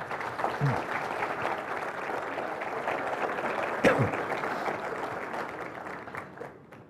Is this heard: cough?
no

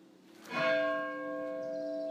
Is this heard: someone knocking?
no

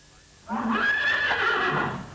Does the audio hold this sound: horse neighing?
yes

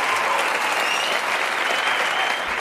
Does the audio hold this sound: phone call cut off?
no

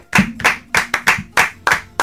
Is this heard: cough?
no

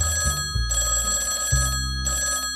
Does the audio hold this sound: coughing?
no

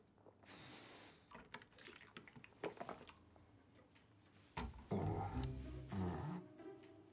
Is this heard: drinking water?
yes

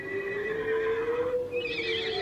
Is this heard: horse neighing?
yes

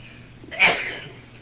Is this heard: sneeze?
yes

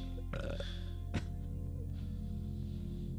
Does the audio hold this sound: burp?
yes

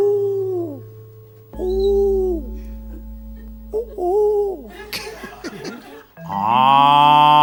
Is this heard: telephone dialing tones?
no

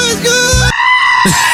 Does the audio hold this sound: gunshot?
no

